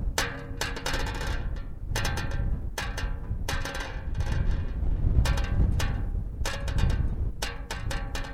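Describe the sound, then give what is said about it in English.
Wind blowing against an aluminum roadside sign in Nevada makes repeated bursts of metallic rattling and ringing. The clusters recur irregularly over a low, continuous rumble of wind. “Wind blows against an aluminum sign. This was recorded a year ago by Aaron Zim, roadside in Nevada.”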